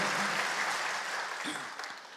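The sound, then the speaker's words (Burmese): Applause from a church audience clapping hands in praise during a Sunday sermon: a dense, steady wash of many hands that holds evenly and then slowly tapers off, with no talking over it. “ဘုရားကိုလက်ခုပ်တီးလျက်ချီးမွမ်းကြရအောင်”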